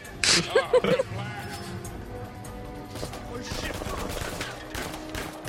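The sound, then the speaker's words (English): Gunfire in a video game trailer: a quick burst of several rapid shots in the first second, followed by a lower, steady background of quieter sound. “he can run through a hail of bullets without anyone killing him. It's ridiculous. The amount of bullets that don't hit him is astonishing.”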